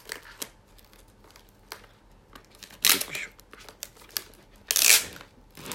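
Crinkling and tearing of a silver seal being peeled off a CD box, with sharp crackles scattered throughout and two louder ripping bursts near the middle and the end.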